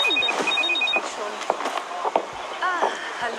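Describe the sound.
A telephone rings in short, repeated electronic trills during the first second, followed by people talking.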